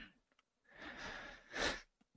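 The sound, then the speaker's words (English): A deep breath drawn in slowly gives a soft, airy rush of about a second that swells into a louder, brief surge at its end, between short quiet gaps. “Deep breath in.”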